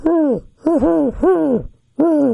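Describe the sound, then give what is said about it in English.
A human voice imitates the hoot of a great horned owl. It gives four low, rounded hoots in a steady rhythm, each hoot swelling and then dropping off, with short pauses between them. “If it's a great horned owl, it's kind of a,”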